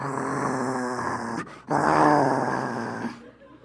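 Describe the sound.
A person imitates a dog growling in a living room, giving two rough, throaty growls split by a brief pause. Both are fairly loud, the second slightly stronger.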